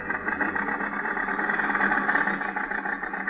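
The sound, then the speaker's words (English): Steady, rough engine drone from a small car driving along a highway in a storm, a continuous mid-range rumble holding an even level throughout with no speech. “The storm is increasing now. The little car lurches and bounces in its fight to keep the center of the highway.”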